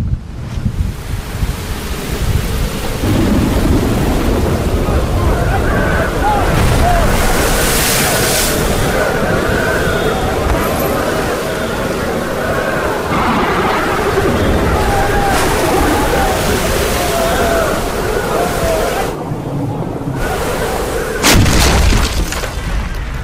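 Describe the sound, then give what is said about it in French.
A squall storm at sea with roaring wind and crashing surf forms a loud, continuous wash of noise that surges and eases throughout. “Comment tu dis? Un grain. Sacrée tempête.”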